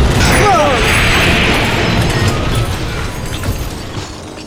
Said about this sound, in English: They're German panzer tanks. Stay down. Gonna blow up the TARDIS. Get down!